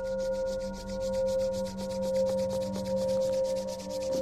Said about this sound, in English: rub your palms together, generate heat between your palms.